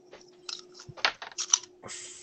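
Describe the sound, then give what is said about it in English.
Dice rolling and rattling across a table during a tabletop role-playing game while a player searches for a twenty-sided die: a loose series of sharp clicks and clatters at irregular intervals over a low steady hum. “Where's my D20? Enjoy the dice ASMR while I root through my way.”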